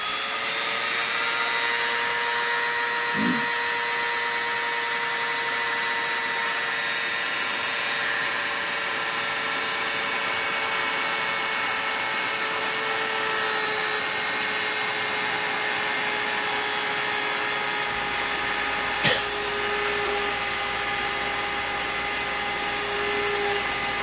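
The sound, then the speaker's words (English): A Dremel rotary tool runs at high speed, drilling holes through a PC board with a number 64 bit of 1/32 inch. It gives a steady, loud, high whine throughout, with a couple of brief bumps along the way. “Now, I'm going to crank up the Dremel tool to real high speed so that we can poke the holes right on through.”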